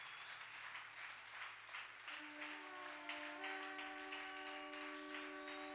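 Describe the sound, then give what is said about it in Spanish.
A church audience applauds with quiet, steady, rhythmic clapping. Sustained musical tones join in partway through and hold under the claps. “Denle un aplauso al Señor con todo el corazón.”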